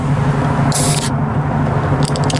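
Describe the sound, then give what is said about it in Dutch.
A can is opened and icy powder sprays out, heard as two short, bright hissing bursts over a steady, loud rumbling background noise. “Er zit een soort lijpe poedersneeuw komt eruit. Even kijken. Daar gaat het blikje... Gaat open.”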